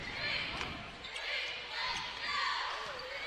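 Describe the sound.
A basketball is dribbled on the court during a girls' high school game, a few soft bounces mixed into gym noise, with people talking over it.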